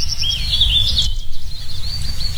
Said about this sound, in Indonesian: di sini masih banyak burung ternyata. Mungkin karena banyak pohon ya.